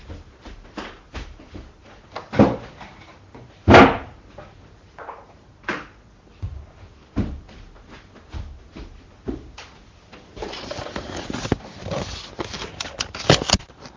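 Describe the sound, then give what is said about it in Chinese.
Human footsteps as someone walks off to plug in a charger: an irregular run of knocking steps and bumps, a few louder thuds early on, and busier shuffling and rustling toward the end. “没有马蹄，我去插电去了，是人蹄儿，不是马蹄儿。”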